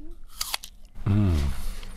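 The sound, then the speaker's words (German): A crisp bite into an apple gives a few sharp crunches, then a voice speaks over continued chewing. “das ist der erste Apfel und heute Abend gibt es dann noch einen Salat. Ich bin gespannt, ganz ehrfürchtig schaue ich mir den Apfel an. Na, dann würde ich sagen, guten Appetit.”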